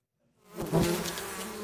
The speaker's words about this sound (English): There is no danger in opening this beehive without protection gear. These bees are stingless. The Melipona bees, a species as gentle as it is vital for the health of the rainforest.